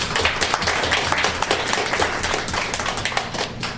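Applause from an open mic audience welcoming a performer: dense, steady clapping that fills the whole stretch at an even level without a break.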